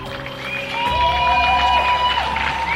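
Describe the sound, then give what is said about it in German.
Cheering and applause from a crowd at a day of action for healthcare care workers, honoring geriatric nurses, paramedics and nurses. A dense, steady roar swells after the first second and holds loud, with shrill whistle-like tones riding on top. “So klang das beim Aktionstag zugunsten der Pflegekräfte im Gesundheitswesen. Warmer Applaus für die tapferen Altenpfleger, für Sanitäter und Krankenschwestern.”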